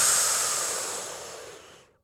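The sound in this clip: A deep breath is drawn in during a guided visualization exercise. It is one long, airy rush that starts at full strength, thins gradually and stops after about two seconds, with no talk over it.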